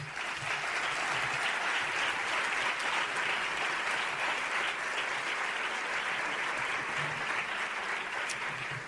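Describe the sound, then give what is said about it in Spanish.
Sustained audience applause at a talk, given in tribute to pandemic essential workers. A dense, steady wash of clapping runs the whole clip at an even, fairly loud level, with no voices over it. “Pido un aplauso para ellos.”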